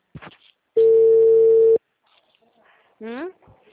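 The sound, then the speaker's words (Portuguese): A telephone ringback tone plays while the caller waits for an answer: one steady, buzzy, mid-pitched tone lasting about a second. Brief speech comes before it and again after it. “Ah, não, eu tô esperando atender.”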